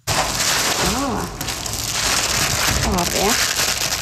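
Crinkling and rustling of packaging as 400 brand-new solar eclipse glasses are unpacked from a box at an aquarium in Ålesund, a dense, continuous crackle that stays fairly loud throughout.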